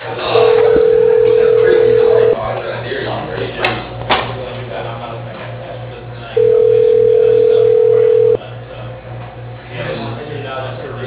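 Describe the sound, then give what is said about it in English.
Telephone ringback tones sound as an automated phone system dials an office extension: two long, steady tones of about two seconds each, over a low pulsing hum, with voices talking in between. “Dialing Ricky. Extension 102.”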